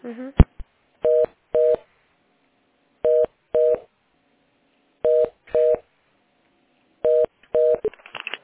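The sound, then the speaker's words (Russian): Ringing tone of a telephone call being transferred to a specialist: four evenly spaced pairs of short, steady electronic tones, with brief voice fragments at the start and end. “А сейчас я звоночек переведу на специалиста, она подскажет тогда, раз она исполнитель.”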